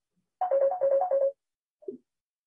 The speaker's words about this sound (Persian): دوستان از ایران زنگ میزنن، نمیدونن که اینجا وقت زنگ نیست.